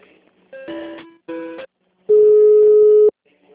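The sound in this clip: Telephone tones sound as an office call is transferred: two short tones, then a longer, steady, loud tone after a brief gap.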